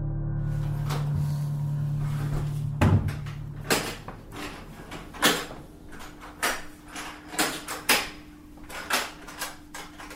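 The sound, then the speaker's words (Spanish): Boxes of old documents being opened and handled: several sharp knocks and clunks with scraping in between, irregular and moderately loud, after a steady low hum at the start. “Y seguimos abriendo cajas para ver los documentos.”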